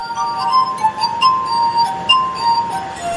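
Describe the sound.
Glass harp music played on drinking glasses: sustained, bell-like pitched tones ring out in an overlapping melody with shimmering high overtones. The notes hold steadily while several gentle swells rise and fade, with no voices heard.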